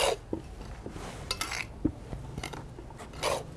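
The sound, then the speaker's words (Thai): Dry plant material being tossed and mixed by hand before fermented fish liquid is poured in, giving faint scattered crunches, rustles and a few light clinks and scrapes, with no talk. “แล้วก็ คลุกเคล้าเลยค่ะคลุกให้เข้ากันก่อนแล้วเดี๋ยวเราก็ราดน้ำค่ะ”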